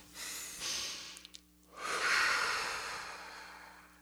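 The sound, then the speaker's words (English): A group of people breathe deeply together, producing two long, airy breaths of broad hissing air. The second breath is louder and more drawn out, with no talking. “everybody just take a breath with me. Yes. And we breathed in. Let's do it now, right?”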